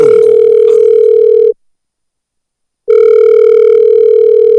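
Telephone tone for an incoming call: a loud, steady electronic tone sounds in two long bursts separated by a clean gap of silence. No voices are heard.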